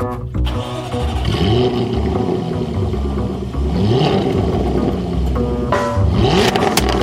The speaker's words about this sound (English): So we're going to go ahead and start up the 2013 Jaguar F-Type convertible.